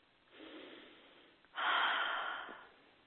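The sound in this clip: A deep breath taken to relieve stress: a soft, airy first breath followed by a louder, longer rush of air that slowly tapers, heard alone with no speech.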